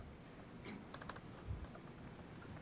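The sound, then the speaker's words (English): Faint computer-keyboard typing: a few soft, quick key clicks in a short cluster while someone edits an API query. No talking. “So I'm going to go in and type a tilde, which is nice.”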